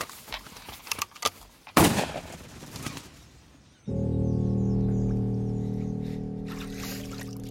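A sharp gunshot fired at a partridge during an outdoor hunt, one loud crack standing out among a few softer clicks and knocks, then giving way to a sustained steady droning tone.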